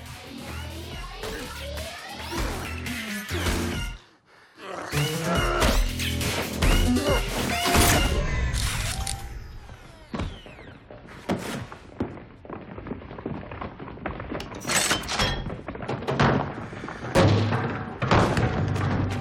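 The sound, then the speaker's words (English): Gory film sound effects of a man's chest being ripped open: many hard thuds, crashes and tearing impacts in irregular bursts, loud throughout, over a song playing underneath. “as we rip into the chest of this guy”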